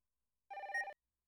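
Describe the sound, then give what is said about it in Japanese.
A telephone rings with an incoming call: a single short, faint ring burst with a fast warbling tremolo over bright layered tones. It stops abruptly, with silence on either side. “そうだった、お店に連絡するの忘れてかかってきちゃいました。すみません、ちょっと出ますね。”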